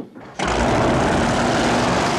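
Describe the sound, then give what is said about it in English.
A speedboat engine roars as the boat races toward a marina. It bursts in suddenly after a brief quiet moment, then holds a loud, steady, high-pitched buzzing drone to the end. “The speedboat races towards the marina”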